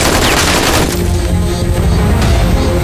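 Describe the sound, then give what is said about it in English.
Loud, dense gunfire rattles without a break, with overlapping shots and booms for the whole stretch. “Open fire. Do it down there! Do it down there! Shoot him!”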